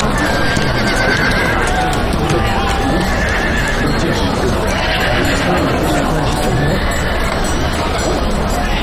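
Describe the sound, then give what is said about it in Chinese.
Horses neigh and their hooves clip-clop at a horse market, forming a loud, continuous, dense texture. Several whinnies recur through it, and people talk alongside. “这儿的马可不错呀，不错不错。”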